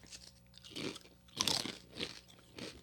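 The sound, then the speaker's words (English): Crunchy bites of barbecue potato chips being eaten: a few quiet, dry crunches arrive in separate bursts with soft chewing between them and no talk. “we're gonna eat barbecue chips”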